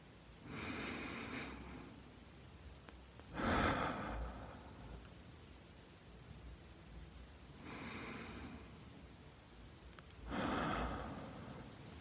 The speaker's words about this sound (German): uns mal drei, vier tiefe Atemzüge nehmen. Und zwar durch die Nase ein, durch den Mund wieder aus. Und lasst euren Atem tief sinken in den Bauch hinein.